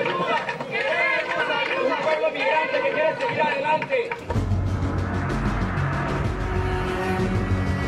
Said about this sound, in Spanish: La bestia retomó su marcha. Continúa el viaje para miles de migrantes que buscan llegar a la Unión Americana tras permanecer prácticamente una semana varados en Zacatecas. ¡Arrancó el tren!